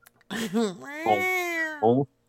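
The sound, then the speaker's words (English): Human voices imitate cats meowing in unison, a few whiny, pitched meows, one stretched into a long wavering tone before a short final mew, sung as a group. “They're going to meow in unison.”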